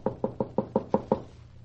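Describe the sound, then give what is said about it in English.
Seven even knocks on a door, evenly spaced and sharp, with a slight fading resonance after the last one and no voices. “I'll knock.”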